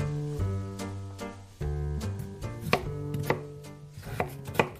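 Knife chopping potatoes for a salad, many sharp, uneven cuts in quick succession over a steady low tonal background.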